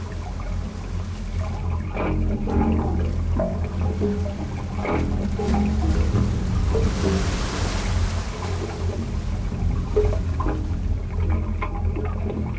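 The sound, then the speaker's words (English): Waves wash through the wave organ, a musical instrument built into the rocks of a jetty on San Francisco Bay and played by tidal water. The water sloshes and churns in a steady, fairly loud, low stream with no talking. “What you are hearing is known as the wave organ, a musical instrument built into the rocks of this jetty that is played by the tidal forces of the San Francisco Bay.”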